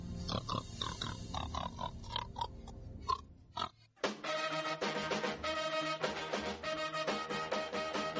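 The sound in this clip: Pig oinking in a rapid run of short, nasal grunts for about three seconds before a brief pause.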